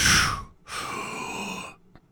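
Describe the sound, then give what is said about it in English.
A quick, forceful exhale at the top of a lift followed by a longer, steady inhale, two airy hissing breaths with the second drawn out. “So that first part was me breathing out. And then the next part was me pulling the air back in.”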